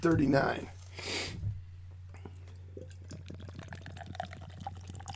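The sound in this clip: Beer splashes into a glass, a golden double IPA at 9.4% and 70 IBUs. A rushing pour fills the first second or so, then fades to a steady low hum with faint scattered clicks.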